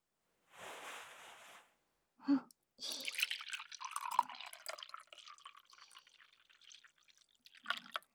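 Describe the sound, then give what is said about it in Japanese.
Liquid being poured into a cup as a drink is refilled: a short soft hiss and a brief bump, then a long uneven splashing trickle that gradually thins out. “じゃあもう一度入れてあげる。ほら、カップを前に出しなさい。”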